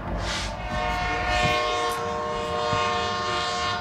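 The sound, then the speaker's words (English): A train passes by, its horn blaring steadily with a rich harmonic tone over a rumbling, clattering rush of wheels, loud throughout with no voices. “And you mind if we just wait until the train goes by?”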